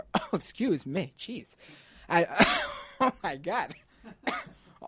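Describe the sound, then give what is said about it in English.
A person in a coughing fit lets out a few harsh, sharp coughs between stretches of talking and throat-clearing sounds. “got a coughing fit now.”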